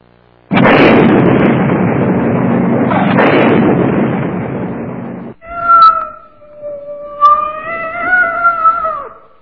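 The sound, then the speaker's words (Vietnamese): A cat yowls in distress while trapped in a burning, sealed cardboard box in a smouldering trash pit. A long, loud roaring burst of flames comes first, then a few drawn-out, wavering cries. “chúng tôi nghe thấy tiếng kêu thương tâm của một chú mèo đang bị chôn vùi giữa đống lửa.”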